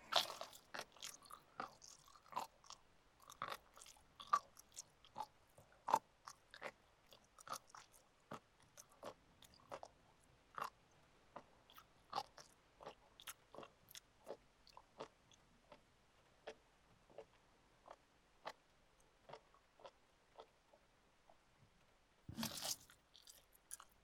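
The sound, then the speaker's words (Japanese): Someone eats slowly, making many crisp crunches and bites in an unhurried, irregular rhythm. The crunching is faint and alone, with a louder rustling burst near the end. “最後だから、ゆっくり味わって食べるね。”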